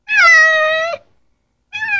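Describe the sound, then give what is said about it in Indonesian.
A cat meows twice, first a long, clear, high-pitched meow, then after a pause a second meow that is cut off at the end. “Anak-anak, suara binatang apakah itu? Kucing. Iya, benar.”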